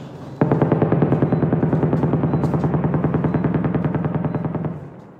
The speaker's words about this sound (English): Now he's in southern Gaza reporting on the bombings there. It's a very intensive shelling going around me.